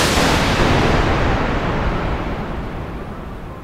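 Enemy gunfire from a video game, a loud, dense roar of shooting that holds steady and then slowly fades over a few seconds, with no voices.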